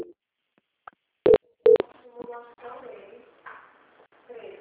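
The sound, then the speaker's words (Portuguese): Two short, loud telephone beeps mark a call being transferred to a quality-control line, with a faint blip before them and people talking afterward. “Vou pedir para que a senhora continue na linha, que eu vou transferir você para o controle de qualidade, que vai dar continuidade na contratação.”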